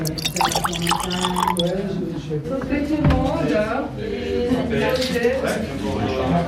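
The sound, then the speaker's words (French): Grand Chasselas wine pouring and trickling into a glass, with soft liquid drips and a gurgling fill running beneath steady conversation as people talk throughout. “Je vous propose de vous remplir un petit verre de Grand Chasselas.”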